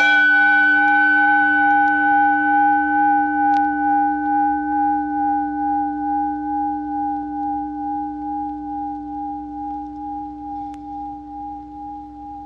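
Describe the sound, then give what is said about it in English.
A struck gong rings with a sustained, bell-like tone that slowly fades over about twelve seconds, its steady drone wavering gently as it decays. “one of them is the gong. It is a sound at once pleasing and compelling. It absorbs attention. But watch what happens when it fades out.”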